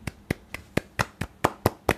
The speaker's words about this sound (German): Und wir müssen jetzt eine kurze, also wir müssen kurz mal feiern. Ein ganz kurzer Applaus, warte.